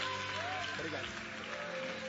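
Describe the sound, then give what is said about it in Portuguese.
A church audience clapping joyfully to celebrate God as the pastor is welcomed, a soft, continuous patter of hands under sustained singing or music tones and a voice. “e a igreja celebra a Deus com palmas bem alegres enquanto nós recebemos o nosso pastor. Isso, celebra a Deus com palmas.”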